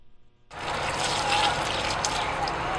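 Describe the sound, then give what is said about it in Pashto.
Water gushing from a solar-powered pump drawing from a hand-dug well thirty metres deep in Khost: a sudden onset, then a loud, steady splashing rush, with a faint voice just before it starts. “دا اوبه د واټر پمپ په وسیله د لمریزې برېښنا په مټ له دېرش متره ژور کیندل شوي څانه را ایستل کیږي.”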